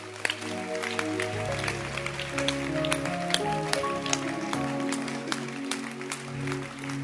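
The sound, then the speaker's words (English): Church audience clapping their hands, sharp scattered claps over sustained, shifting musical tones like a keyboard, lasting the whole clip at moderate volume. “Can you clap your hands?”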